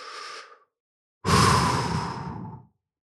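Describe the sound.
Deep breathing in and out: a short soft breath, a brief pause, then a longer, louder airy breath that fades away, with no talking.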